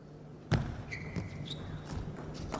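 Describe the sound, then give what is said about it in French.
A table tennis ball bouncing during a rally makes one sharp tap, followed by a few fainter, evenly spaced taps over a low steady background. “Bravo, encore une fois cette balle. Il le gêne énormément avec ses balles un petit peu ralenties mais qui sont milieu de table.”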